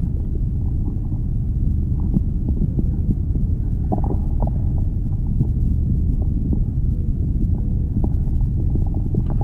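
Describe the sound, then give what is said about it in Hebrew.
Stomach rumbling from the digestive system, a continuous low gurgling drone broken by scattered small bubbly gurgles and pops, steady in level throughout, with no talk. “הצלילים של הקיבה שלנו.”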